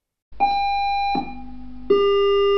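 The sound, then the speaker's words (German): An alarm beeps in three sustained electronic tones, each under a second long. The pitch steps from high down to low, then back up to a middle pitch. “Alarm! Alarm!”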